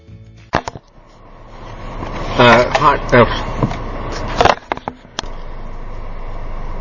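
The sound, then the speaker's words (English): Road noise inside a moving car: a steady low rumble rises slightly as it drives, with a few sharp clicks and knocks and a voice briefly in the middle. “You can obviously hear this is while driving. Just make sure I don't crash into this person who's taking this.”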